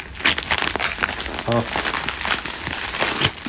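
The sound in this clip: Paper crinkling and crackling as a birthday present is unwrapped, with continuous rustling throughout and a brief vocal sound partway through.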